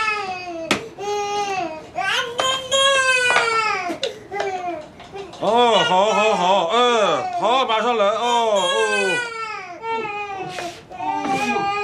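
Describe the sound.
A baby cries after waking up, loud wailing bursts separated by short breaths and pauses, the pitch wavering up and down with each sob.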